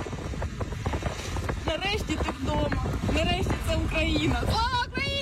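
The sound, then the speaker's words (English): A car drives through the village of Borova in Ukraine with excited people inside, a flag held out the window; constant rumbling road and wind noise runs under loud, animated voices and cheering throughout. “What you're hearing is a car driving in the village of Borova.”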